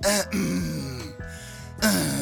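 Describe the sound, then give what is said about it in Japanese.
A few voiced throat-clearing bursts demonstrate a growling vocal technique, each rough, buzzy cough carrying a sung vowel tone. The bursts are moderately loud, separated by short gaps, with no other speech. “出し方4つ目、咳払いに言葉を乗せる。”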